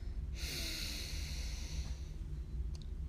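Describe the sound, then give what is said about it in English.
A slow, deep breath in, taken as a calming self-care exercise: a soft, breathy hiss that begins suddenly and holds steady for about a second and a half before fading into low background hum. “Just take a slow, deep breath in.”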